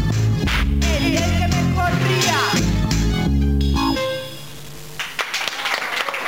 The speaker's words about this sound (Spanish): Gracias por escuchar, por el aplauso.